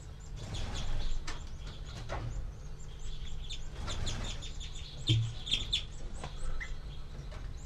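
Nestling birds give begging calls from their nest, a scatter of short, high chirps repeating over a constant background hiss.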